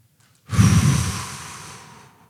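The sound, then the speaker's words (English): A single deep breath taken during a quiet spoken prayer, a loud airy rush that starts abruptly and then slowly fades over about two seconds, heard alone without speech. “And then I take in another deep breath.”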